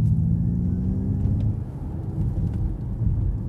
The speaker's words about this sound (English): So Ford say that it's been sampled off of like a 1960s sci-fi movie spaceship, is what they say.